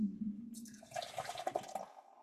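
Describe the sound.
Iron Hops Brewing Battle Brew, a 6.2% IPA, is poured down the middle of a glass. The liquid gives a steady, faint splashing gurgle that runs for under two seconds, then stops.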